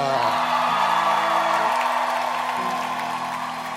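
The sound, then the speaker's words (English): An audience shouts and whoops to welcome a speaker, a loud, dense wash of many voices that holds steady throughout and eases slightly at the end. “With joy and gladness, please shout and welcome Ida.”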